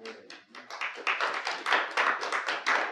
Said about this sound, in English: You don't have to clap when I come up.